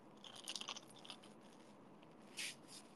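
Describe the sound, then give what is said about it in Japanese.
Someone bites into a crispy McDonald's fast-food apple pie: faint, brittle crunches come as a short cluster early on, then one more crackling bite later, with no talk. “すごいさパリパリしてるからさ、音よう入ってるでしょ”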